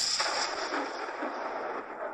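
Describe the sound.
A cannon blast fired from a ship to hail a vessel moving erratically under sail, heard as a rough, rumbling roar with a few rolling bursts, sustained through the whole stretch and fairly quiet.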